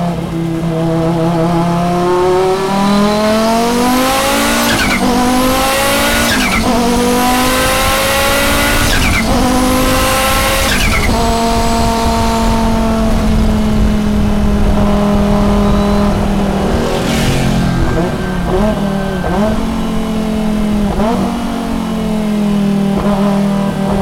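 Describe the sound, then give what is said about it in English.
In-car sound of a 1988 Audi 200 Quattro Turbo Trans Am race car lapping Laguna Seca: a loud, harsh turbo engine roars and climbs in pitch through repeated sweeps, dropping at each gear change, before settling into a steadier drone. “whenever I hear this in-car capture from 2018 at WeatherTech Raceway Laguna Seca, Zach Brown and his 1988 Audi 200 Quattro Turbo Trans Am machine.”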